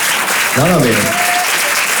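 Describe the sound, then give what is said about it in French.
An audience of about 100 people applauds in a room with a steady, dense wash of clapping. A voice rises briefly over the applause. “Salle de 100 personnes, les applaudissements sont venus que des femmes au départ.”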